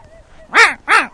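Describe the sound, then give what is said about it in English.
A duck calls twice, giving two loud, harsh, nasal quacks that each rise and then fall in pitch. The calls come in quick succession over faint background noise. “What the hell's that? That's a duck.”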